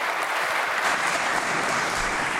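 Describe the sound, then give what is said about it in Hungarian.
Applause in a Hungarian parliamentary session, a thick, even wash of clapping from many members that continues steadily from start to finish. “Köszönöm szépen ezt a kitüntető tapsot és figyelmet.”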